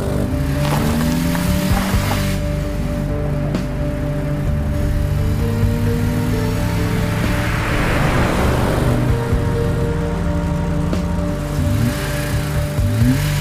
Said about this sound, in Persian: مالک از همه ماشین ها سبقت میگیره. میاد جلوی ماشین ناصر.